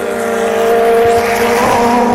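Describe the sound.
Race cars pass very close by at a circuit, producing a loud, sustained engine whine with steady high tones that hold across the whole short stretch without a break.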